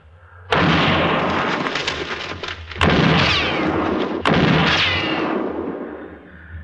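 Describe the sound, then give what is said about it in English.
Three loud gunshots ring out during a frontier shootout aimed into brush. Each sharp crack is followed by a long, rumbling echo that fades before the next shot, with no talk. “when I fire, you'll roll away fast”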